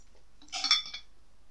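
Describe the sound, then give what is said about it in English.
A kettle clicks off with one short, bright metallic clink that rings briefly, faint and alone against near silence. “That was the kettle clicking.”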